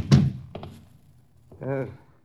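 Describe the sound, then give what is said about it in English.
A door is shut with one heavy thunk at the very start, then a faint tap, and a short voice follows a moment later. “Close the door, knuckle brain. There's a draft to me back.”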